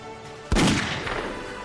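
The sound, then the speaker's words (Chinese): A single distant rifle gunshot gives a sudden crisp crack. A long rolling tail follows and slowly fades away. “一声枪响，隔着很远，声音清脆。这是步枪的射击，而且来自齐大方向。”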